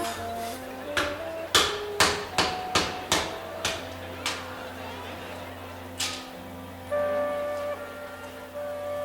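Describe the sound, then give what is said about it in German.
Hammer blows nail a wooden box shut while a stage magician is inside: a regular series of many sharp knocks with a few later strikes, over a sustained musical backdrop. “Er steigt in eine Kiste. Und seine spärlich bekleideten Assistentinnen nageln sie zu.”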